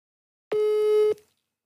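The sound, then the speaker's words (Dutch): A telephone tone sounds while a call is being placed: one steady, mid-pitched electronic beep lasting about half a second, heard alone. “Ik ga nu bellen en vragen waar, waar, waar dit over gaat.”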